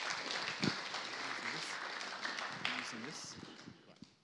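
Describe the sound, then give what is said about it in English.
Audience applause welcoming a guest speaker to a talk on the life of Abraham from a Jewish perspective. Sustained clapping runs throughout with voices over it, then gradually thins and fades toward the end. “So can we give Angela a warm welcome as she comes today?”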